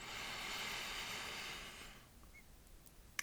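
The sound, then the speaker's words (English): A deep breath drawn in through the nose during a guided breathing exercise: a soft, airy hiss that holds for about two seconds, then fades into quiet. “So let's just take a second to breathe in”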